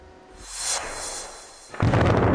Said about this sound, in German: In Förde am Niederrhein sind drei Gebäude eines stillgelegten Kohlekraftwerks gesprengt worden. 30.000 Tonnen Stahl, ein Komplex so groß wie ein Fußballfeld, krachten zu Boden.